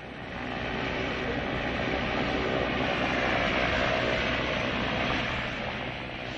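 The steady, dense roar of an airplane in flight, heard by a passenger on board, stays at an even loudness throughout, with no voices and no distinct events.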